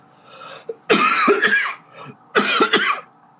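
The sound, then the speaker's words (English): Harsh, choking coughs from someone with a boba pearl stuck in the throat come in two loud bursts, each a rapid cluster of hacking coughs. “I got a boba stuck in my throat now.”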